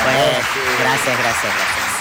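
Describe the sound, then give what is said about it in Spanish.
Audience applause at a live event sounds as a dense, steady wash of clapping, with voices mixed into it throughout. “Te puedo pedir un aplauso”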